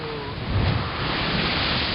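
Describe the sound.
Strong wind over the sea around a boat, a loud, steady roar of rushing air and water with a heavier gust near the middle.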